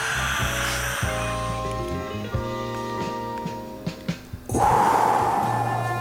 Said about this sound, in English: Meditation time. Take your breath in.